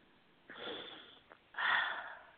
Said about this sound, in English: And breathe.